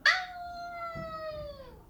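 A young female pup calls out with a single drawn-out howl, a bright onset settling into a clear, steady tone that sags slightly in pitch and lasts under two seconds, heard alone.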